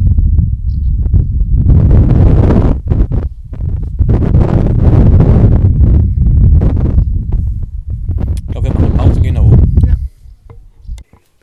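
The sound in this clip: Wind buffets a microphone outdoors in heavy, irregular low rumbling gusts that batter the sound almost continuously, then die away into brief faint puffs near the end.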